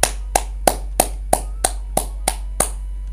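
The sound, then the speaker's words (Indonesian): Crisp hand clapping offered as applause, nine sharp, evenly spaced claps in a steady rhythm with no voices. “aplaus dulu dong”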